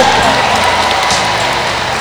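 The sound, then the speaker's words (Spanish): Loud, dense applause from an audience forms a continuous wash of claps that eases slightly toward the end. “¡Un aplauso!”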